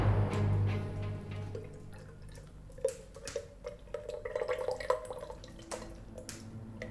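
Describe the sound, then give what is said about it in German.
Molten, glowing metal is poured into a mould. A low hum fades into a series of faint dripping, bubbling and splashing liquid sounds, uneven in rhythm. “Jetzt bist du vollends zu glühendem Brei geschmolzen, den ich in diese Form hier gieße.”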